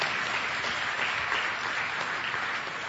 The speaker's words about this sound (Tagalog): palakpakan natin ng Diyos